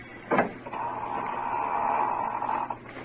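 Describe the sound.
A door opening in an old radio mystery drama: a brief knocking thud, then a long, steady, drawn-out creak of the hinges that fades at the end. No voices are heard.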